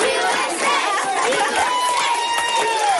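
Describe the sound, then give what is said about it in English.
Elementary school students lining the halls at Prairie Vale Elementary School in Edmond, Oklahoma, cheer and chatter for their cafeteria manager, a dense, continuous crowd of young voices with excited high shouts rising throughout. “all these students lining the halls at Prairie Vale Elementary School in Edmond, Oklahoma, were in on it. Celebrating their beloved cafeteria manager”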